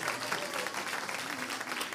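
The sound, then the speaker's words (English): A church audience claps for the Lord in a fairly soft but steady burst of many hands that holds at an even level throughout. “If you clap for the Lord high enough, I'll remember you in prayer.”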